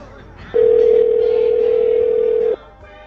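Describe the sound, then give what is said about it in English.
A telephone ring tone sounds as one steady, mid-pitched beep lasting about two seconds. It is loud and clear over a low background murmur, and the murmur continues after the beep stops. “Hopefully you can hear the ringing. Is that working for you guys?”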